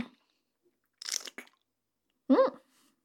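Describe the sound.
Someone tasting food: a few short crunchy bites and chewing bursts separated by silence, the last one the loudest.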